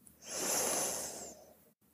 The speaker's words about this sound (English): Breathe in for three.